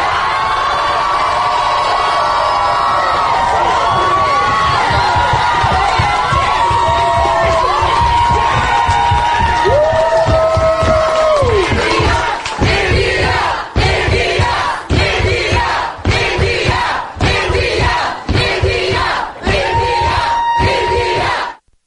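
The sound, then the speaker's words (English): Crowd cheering at an election night celebration in Buffalo: loud, sustained whoops, shouts and yells, turning into rhythmic chanting bursts separated by short, regular pauses. “So as you can hear, the excitement for India last night was very palatable in Buffalo.”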